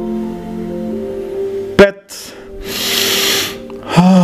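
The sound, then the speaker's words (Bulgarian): A deep inhaled breath during a guided relaxation exercise: a soft, airy rush lasting about a second that follows steady sustained tones and a brief click. “Вдишай по-дълбоко.”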